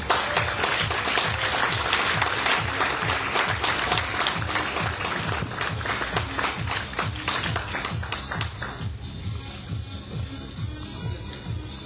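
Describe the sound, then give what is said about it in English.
Audience applause welcoming Utah and Idaho state leadership as they come up on stage, dense, lively clapping that runs steadily and then thins out and softens toward the end. “So please help me welcome the Utah and Idaho state leadership and give them a hand as they come up.”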